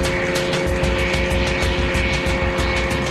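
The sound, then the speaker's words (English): Propeller aircraft engine at full power on a flimsy plane held together by string and glue, a loud, steady, dense roar with a constant droning hum and fast pulsing throughout. “He's going flat out. Yeah, he's adding a bit more power now. I see the tail. There it goes.”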